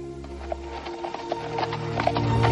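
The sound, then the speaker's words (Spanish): Horse hooves clop faintly as a rider in dress uniform leaves through a gate in a city wall on a white horse, a few soft knocks over a low steady hum. “Craso sale sobre su caballo blanco vistiendo su uniforme de gala y seguido por César.”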